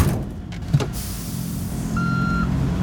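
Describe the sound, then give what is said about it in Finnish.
A car engine rumbles low and steady while the car reverses, with a brief high tone sounding near the end. “viititkö mennä kattoon, kun mä peruutan?”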